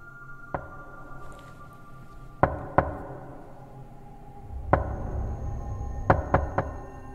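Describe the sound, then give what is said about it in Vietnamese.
Knocking on a door: seven sharp, hollow raps in irregular groups, a single knock, then a pair, another single, then a quick triple, over a quiet low background hum. “Trong cơn mơ màng, tôi nghe có tiếng gõ cửa vang lên.”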